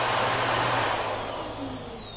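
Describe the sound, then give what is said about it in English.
A Car Prima vacuum cleaner runs with a steady, fairly quiet whirring roar that eases slightly in level toward the end. “So, that is super quiet. This is a super awesome vacuum, the Car Prima.”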